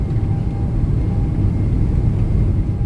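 Deep, constant roar of spacecraft engines throttling up during launch, a dense low rumble that holds steady and loud throughout, with no voices.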